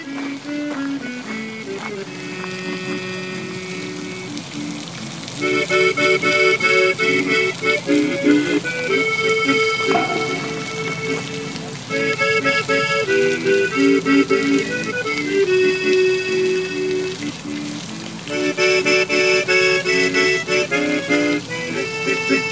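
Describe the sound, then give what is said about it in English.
A fountain splashes in the middle of a lake, heard while walking along the shore: a steady, fairly loud wash of falling water with some tonal sounds layered over it. “That's not someone relieving themselves, that is actually a fountain in the middle of the lake.”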